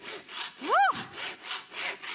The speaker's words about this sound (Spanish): Te he dicho que cortes la madera. Por ende, eres un serrucho. Finalmente entiendo. Tengo esperanza. Ahí voy. Ahí voy. Voy a cortar. Voy a cortar.